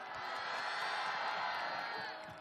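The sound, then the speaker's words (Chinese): A crowd cheers and screams for Jackie Chan and his stunt team, a thick, sustained roar of shouting and whooping that holds steady and then eases slightly at the end. “让我们用最热烈的掌声献给成龙先生以及成家班所有的成员， 尖叫声。”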